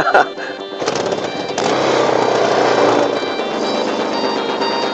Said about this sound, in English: They drop the bike into its cradle and they are ready to go. Be interesting to see whether the thing moves at all, really.